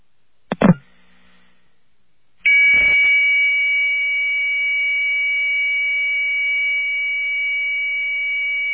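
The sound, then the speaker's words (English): A dial-up modem connecting: a brief sharp click, a short pause, then a steady, sustained electronic tone with harmonics that holds loud and unchanging to the end. “Now, even I know that's not a 2400 baud modem. I know that for a fact that connects to 2400.”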